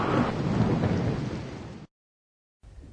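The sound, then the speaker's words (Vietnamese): Thunder and rain from a storm battering a garden: a loud, broad rumbling roar that slowly fades, cuts to a brief silence, then returns more quietly as steady rain noise. “Cả khu vườn bị vùi dập tả tơi trong gió bão”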